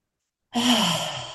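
A single slow, breathy breath drawn during a guided relaxation exercise: one soft, airy rush that swells quickly, then gently tapers off over about a second.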